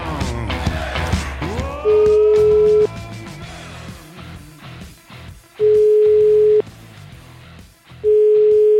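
Telephone ringback tone as a prank call is placed: three steady, loud, mid-pitched beeps, each about a second long and spaced a few seconds apart, the last cut off at the end, over a busy mix of other sounds.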